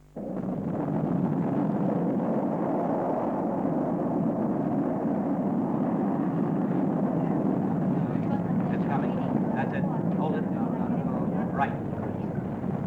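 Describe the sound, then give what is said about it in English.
Deep, continuous roar of the Prometheus 5 rocket lifting off the tower, loud and steady for about thirteen seconds, with voices talking over the rumble. “It's all systems go. Prometheus 5 has cleared the tower. It's a good one. Delta acceleration at maximum.”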